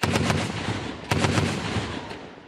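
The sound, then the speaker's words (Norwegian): Gunfire as soldiers in eastern Congo shoot at a militia group: dense, crackling rounds in two sustained bursts, loud and continuous with no talk. “Kongolesiske soldater skyter mot en av militsgruppene i Øst-Kongo.”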